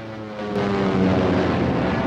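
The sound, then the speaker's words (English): Propeller fighter plane engines in a World War II aerial dogfight with a Japanese fighter: a loud, steady droning roar that swells up after a quieter opening and then holds level. “Jim sees that he's in trouble and quickly steers his plane towards him, aiming his guns at the Japanese fighter.”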